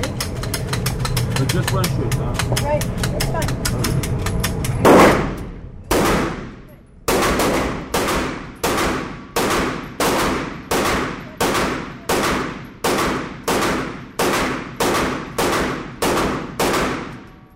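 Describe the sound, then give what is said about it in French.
Gunshots at a shooting range during a lesson for a woman learning to shoot. A dense, fast rattle of fire gives way to many loud, separate cracks at a steady pace, each with a trailing decay. “C'est extraordinaire la situation parce que c'est cette nana qui apprend à give, à tirer. Alors, quand ça tire, on a des casques.”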